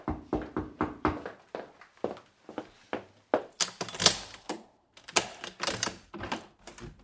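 A door being opened, heard as a brisk run of sharp clicks, knocks and rattles like a lock and handle being worked, fairly loud and without talk.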